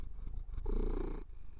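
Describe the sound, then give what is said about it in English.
A cat purrs in a steady, low rumbling burst that lasts under a second, against a quiet background with no talk. “Later on in the episode, he's purring quite loudly. You might be able to pick that up on the mic.”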